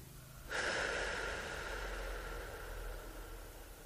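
One deep exhale comes as a soft, breathy rush of air that starts suddenly and then slowly tapers over several seconds. It is faint and has no voice over it.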